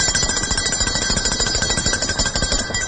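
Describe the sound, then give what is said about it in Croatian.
A school bell rings at an autumn memorial ceremony at the monument in Šumarice to executed pupils and teachers, a loud, continuous, rapidly trilling ring lasting throughout with no voices. “i ove jeseni počela je zvonjavom školskog zvona”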